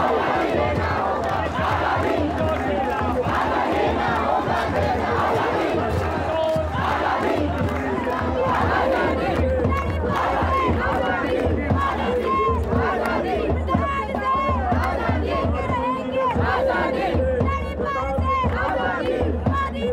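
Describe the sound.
A crowd off stage at a public event cheers and shouts without pause, a loud, dense mass of voices that holds steady for the whole stretch.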